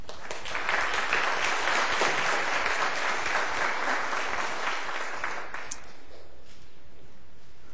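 An audience at a worship service applauds to welcome the Boy Scouts, with full, dense clapping from many people that holds steady for several seconds before fading away.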